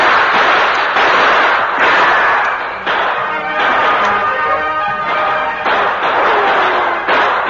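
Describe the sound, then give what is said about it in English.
Gunfire in a radio drama shootout at twilight among trees, with outlaws trading shots: many sharp, loud bangs and thuds in rapid, overlapping succession, each with a short decaying tail. “the Lone Ranger and Tonto exchanged shots with the two remaining outlaws”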